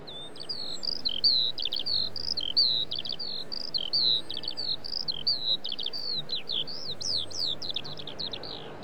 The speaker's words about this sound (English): Vaughan Williams was of course trying to replicate Lark Song. Let's have a listen to this.